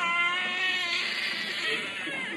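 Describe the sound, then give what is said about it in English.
Newborn babies crying as they are bathed in a maternity hospital: a sustained, high, wavering wail with rich harmonics that runs loud and unbroken through the whole clip. “Newborns mewl and squall as they're bathed in a maternity hospital.”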